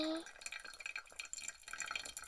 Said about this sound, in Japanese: 本番のお湯を注いでいきますね。ドリッパーにたまるお湯が一定になるように、